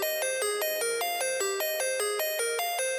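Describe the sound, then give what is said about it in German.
Electronic phone ringtone for an incoming call: a loud, steady melodic pattern of bright tones switching quickly between a higher and a lower note, repeating evenly throughout with no voices. “Irgendjemand ruft mich an, da muss ich jetzt rangehen.”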